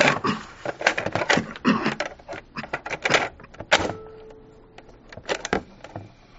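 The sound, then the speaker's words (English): A cassette tape being turned over in a recorder: a rapid run of sharp plastic clicks, knocks and rattles, with a brief steady mechanical hum in the middle. “So let me turn my tape over.”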